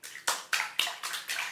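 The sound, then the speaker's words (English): Water splashes in a bathtub during washing, with a regular series of short, bright sloshing bursts separated by brief quieter gaps. “Yes folks, that is not studio created sound. That is the sound of me washing my pussy in a bathtub.”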